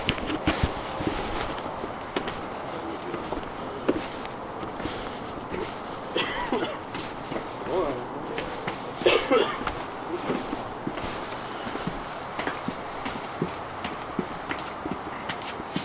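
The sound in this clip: Footsteps going downstairs at night, a string of irregular soft thuds and scuffs over a steady background hiss, with no clear rhythm.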